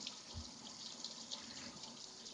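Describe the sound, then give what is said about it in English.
Faint, steady hiss of running tap water as kitchen shears from a hand-wash-only knife set are rinsed after cutting crispy bacon, with small splashes and no talk. “I'm going to rinse my shears off here.”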